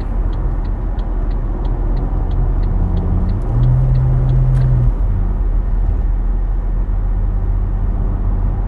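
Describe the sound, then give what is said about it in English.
A car moves along the road with a steady, loud rumble throughout, and a low hum swells briefly midway. “Sorry, this dude, I was driving, so this dude was just like going like 80 miles an hour, try to, you know, pass into one lane.”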